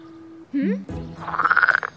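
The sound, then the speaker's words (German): A frog croaks in a children's story, a rapid, pulsing rattle of croaks that rises to a fairly loud trill, following a brief vocal sound. “Doch der Frosch starrt sie an.”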